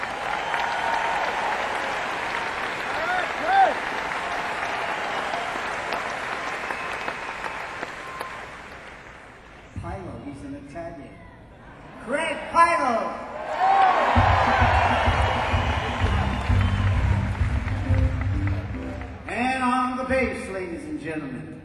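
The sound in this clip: An audience applauds and cheers a drummer at a live band show. Dense clapping with shouts runs steadily for about ten seconds, then a voice speaks over lighter crowd noise and scattered claps.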